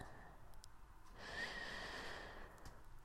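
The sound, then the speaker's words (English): A deep breath drawn in, a faint, soft breathy hiss that swells briefly and then eases away, heard on its own. “Try to breathe with me, babe.”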